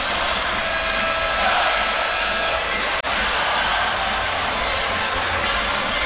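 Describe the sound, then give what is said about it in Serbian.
Basketball fans roar and chant inside an arena during a game involving Zadar, with the Tornado supporters' group in the stands. The crowd noise is loud and unbroken, with a single brief dip near the middle. “Da, zabavljaju se navijači naravno uz navijanje.”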